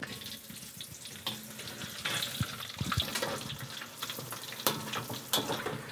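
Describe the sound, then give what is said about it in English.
Pieces of gnocco fritto dough frying in hot oil: a steady, dense sizzle and crackle that continues throughout, with a few louder bursts as the dough puffs. “I can tell that this oil is ready to accept some gnocca frito. Dropping them in, they're immediately starting to puff a little bit, which is a good sign.”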